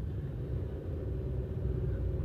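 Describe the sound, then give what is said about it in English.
A car driving: a steady low rumble of engine and road noise fills the interior, even and unbroken throughout, with no distinct clicks standing out. “hold on, I'm driving, so I'm putting my seatbelt on”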